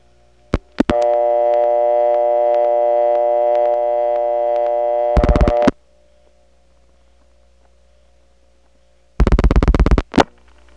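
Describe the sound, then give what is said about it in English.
Telephone exchange tones after dialing into a Drake step-by-step selector and a DeKalb County PBX: a few clicks, then a steady buzzing reorder tone lasting about five seconds that cuts off, a silent gap, and one short PBX ring burst near the end. “Having dialed 3-7, we're on the Drake incoming selector, and you do hear the signature reorder. But when we dial 1, that puts us through to the PBX, and the reorder goes away.”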